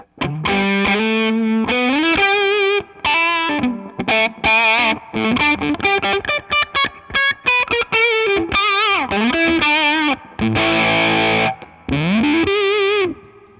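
Electric guitar through a Boss Waza-Craft limited edition Tone Bender fuzz pedal run at 12 volts with tone fully down, thick sustained distorted notes and bent phrases, played loud with brief breaks between licks.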